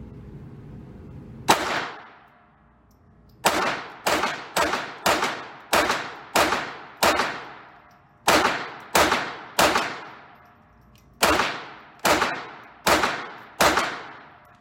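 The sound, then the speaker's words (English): Fifteen pistol shots at a shooting range, slow fire: one crack, a pause, then fourteen more in an uneven rhythm. Each shot is a loud, sharp report with a short decaying tail. “All right, drive out, get a good grip, take aim, and just slow fire and have fun.”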